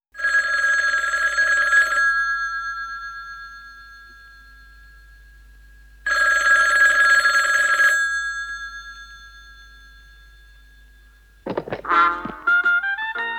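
A telephone bell rings in two long, loud bursts separated by a pause, each with a steady high tone. An answering machine then picks up with a quick run of short electronic beeps.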